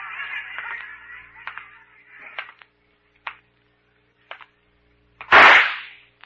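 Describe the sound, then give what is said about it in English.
A gun is fired nearby with one sharp, loud shot near the end, after a few faint clicks and light taps spread across the quieter moments before it. “You ought to be more careful with that gun, Pete. You almost hit me.”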